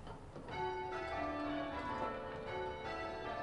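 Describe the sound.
Church bells rung in change ringing, a dense, continuous wash of overlapping metallic strikes and ringing tones that stays loud throughout, with many bells sounding in close succession.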